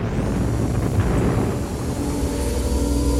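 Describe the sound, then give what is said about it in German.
Nuclear engines of a spaceship running at full reverse thrust, a loud, dense, unbroken roar with a deep rumbling base that holds steady throughout. “Sofort nukleare Triebwerke auf voller Kraft zurück. Wir landen auf der Erde.”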